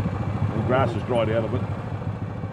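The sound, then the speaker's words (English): A farmer's quad bike engine runs with a low, steady rumble while it carries riders across dry grass paddocks. People talk over the engine noise. “So he's giving us a ride on his quad bike.”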